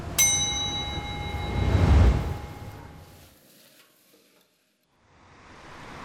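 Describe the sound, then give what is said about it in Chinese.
A Hunan-style wok stir-fry of tender pork kidney and crisp beef tripe over high heat in plenty of hot oil. A metallic ring opens, then a loud sizzling rush swells and fades, a short silence falls, and the sizzle returns. “娇嫩的腰花与脆爽的黄喉在锅热油宽火旺下翻炒几十秒即可”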